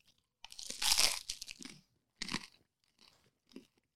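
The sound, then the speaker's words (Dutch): Crunching bite into a sourdough toastie filled with cheese and an onion mix: one loud, long crisp crunch, then three shorter, softer chewing crunches, with no talking. “Het is een tosti op zuurdesembrood met alleen kaas en een uimengsel. Kaas en uimengsel. Ik ga het even proberen.”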